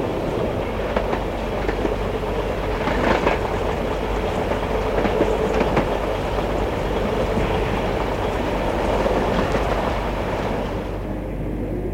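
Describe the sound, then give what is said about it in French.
A late-night passenger train at a station, a steady loud rumble of railway wagons with rattling wheel clatter running throughout, with no talk. “Le train arrive, il s'installe, il y a peu de monde, il est tard.”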